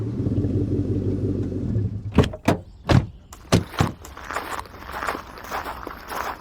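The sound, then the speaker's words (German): Footsteps set out on foot outdoors after a car has stopped, a few sharp, uneven thuds following a fading low engine rumble, then giving way to a steady rustling noise. “Okay, dann gehen wir wohl von hier aus jetzt besser zu Fuß weiter.”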